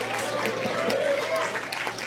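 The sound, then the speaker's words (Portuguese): A church audience claps in praise, producing a steady, moderate patter of many hands beneath a voice speaking over it. “Exalta o Senhor com palmas bem alegre para Jesus. Palmas e glória a Deus. Palmas e aleluia.”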